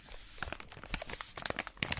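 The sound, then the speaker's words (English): Paper is crumpled and squeezed, giving off many crisp, irregular crackles and snaps. The sound is quiet and heard alone, with dense bursts clustered toward the end. “a growing number of people are choosing to watch videos of, for example, someone crumpling paper”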